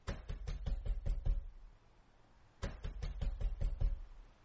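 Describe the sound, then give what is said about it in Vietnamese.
Someone pounds repeatedly on a room door: a quick run of heavy, loud thuds, a pause of about a second, then a second flurry of blows, with no voices. “đập cửa liên hồi”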